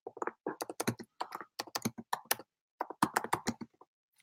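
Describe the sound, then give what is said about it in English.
Computer keyboard typing: many rapid, crisp keystrokes come in quick bursts with a short pause midway, and no talking. “I want to remind you guys, I want to type this in.”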